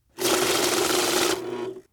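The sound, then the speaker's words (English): A money counting machine riffles through banknotes in one short, rapid whirring burst that holds steady, softens slightly near the end, then stops abruptly. “That's the sound of the money counter.”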